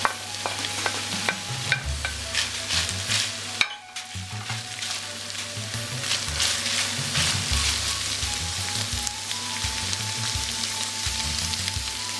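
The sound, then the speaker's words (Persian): Sizzling stir-fry of bell pepper and meat in a pan, with ingredients for a pizza topping being tossed. A continuous hiss runs throughout, with repeated low scraping stirs and one brief dip near the middle. “بعد از اینکه فلفل دلمه ای رو یه مقدار تفت دادیم با گوشت، قارچ رو بلافاصله اضافه میکنیم و همزمان مجددا همه مواد رو با هم مخلوط میکنیم و تفت میدیم.”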